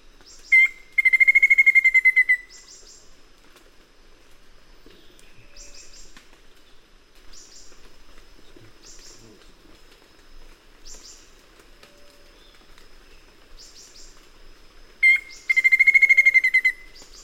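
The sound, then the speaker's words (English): A black-faced antthrush calls with two loud, rapid, trilling bursts, one near the start and one near the end. Fainter short notes recur at intervals in between over a quiet background. “Black-faced ant thrush.”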